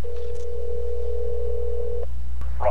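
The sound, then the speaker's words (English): A telephone dial tone holds as a steady, single-pitched hum for about two seconds, then cuts off with a click. A brief burst of noise follows near the end. “All right, let's dial up Russell.”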